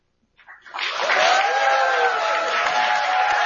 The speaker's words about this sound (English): I'm going to ask everybody to please hold their applause and not interrupt the candidates, except for right now as we welcome your candidates for Congress.